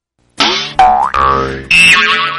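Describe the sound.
Four loud cartoon boings, one after another, standing in for a car bouncing on bad shocks. Each is a springy twang with a wobbling, bending pitch, and they play alone with no talk.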